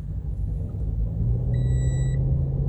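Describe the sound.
A car engine rumbles steadily as the car drives off, a low continuous drone. Partway through, a thin, high electronic tone sounds briefly; no voices.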